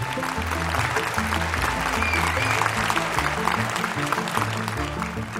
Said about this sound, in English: the audience rose to their feet and gave her a standing ovation.